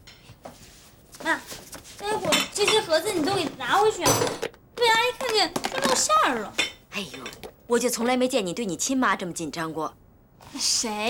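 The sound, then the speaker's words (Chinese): Dishes and cutlery clink as a plate is fetched to hold food, light scattered clatter mixed under continuous, animated conversation. “这些菜我给你拿个盘子装起来。”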